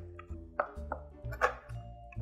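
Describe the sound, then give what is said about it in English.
Knife chopping a block of chocolate into big, ragged chunks: a few sharp, separate knocks of the blade on the board, spaced unevenly, with a steady low hum underneath. “All right, I will leave this in pretty big chunks though, so that it also is something that you will definitely know when you've hit a pocket of chocolate. Okay, that is all of the chopping.”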